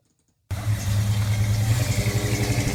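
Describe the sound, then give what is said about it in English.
Engine of a 1975 Chevy K10 truck catching abruptly after half a second of silence, then holding a steady, loud low rumble with a slight pulsing throb and no voices. “It's an engine. It's a car engine, obviously. So you think it's a Chevy? Sounds like a Chevy. That is a 1975 Chevy K10.”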